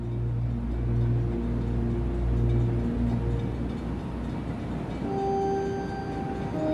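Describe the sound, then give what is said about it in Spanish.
Train arriving at a station, a steady low rumble with sustained droning tones from the cars, holding an even loudness throughout with no voices. “el tren va suavemente llegando a una estación”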